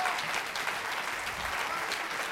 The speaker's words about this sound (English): Let's clap our hands and give God some praise.